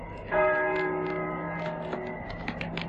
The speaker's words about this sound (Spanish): ¿Oyes? Las campanas doblan.